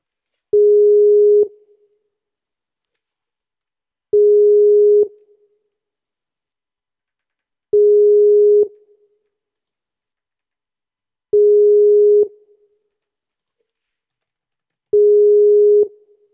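Ringback tone of an unanswered phone call: five steady mid-pitched beeps, each about a second long, repeating at even intervals with silence between and no talking.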